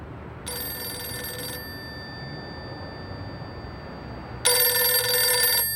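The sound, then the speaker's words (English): A mobile phone rings after a number is dialed. Two high, bright ring bursts are separated by a long pause over a faint low background hum. “The handsome man gets out his mobile phone and dials a number.”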